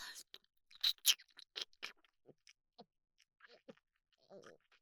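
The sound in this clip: Someone chews tough food that is hard to bite through, producing moist crunches and sharp clicks in an irregular run, loudest in the first second and then scattered and fainter.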